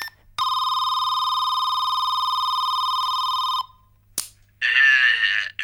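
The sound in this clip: Telephone ringing as a call goes through: one long, steady electronic buzzing tone of about three seconds, then a brief click and a voice answering.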